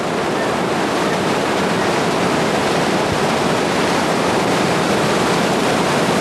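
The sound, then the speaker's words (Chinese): The Qiantang River tidal bore surges past Zhan'ao Tower in a loud, unbroken roar of rushing water that stays steady from start to finish. “潮水撞线战鳌塔，我想这一刻不只是壮观，更是属于岩观，属于钱塘江的经典瞬间。”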